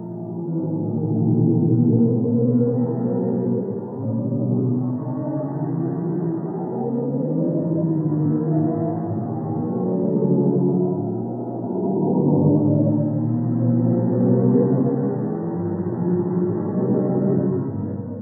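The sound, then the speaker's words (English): Low, eerie moaning drone rendered from NASA black hole data, continuous and steady, with slowly shifting, wavering tones that resemble distant whale calls, heard alone without talk. “NASA found not a translation of a black hole, but the actual sound of a black hole. And that sounds like this.”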